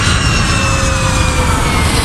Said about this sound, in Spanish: Ursula von der Leyen, presidenta de la Comisión Europea, viaja en avión